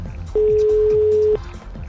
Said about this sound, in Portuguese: Parece que vai chamar, viu? Opa! Tá chamando! Tá chamando! Eba! Tá chamando!